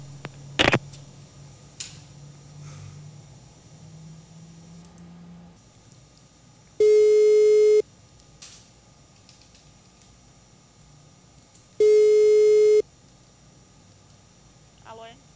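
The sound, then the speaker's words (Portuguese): Telephone line tone after a dropped call: two loud, steady electronic tones of the same mid pitch, each lasting about one second and spaced about four seconds apart, over faint line noise. “Caiu a ligação antes de estar falando com a senhora?”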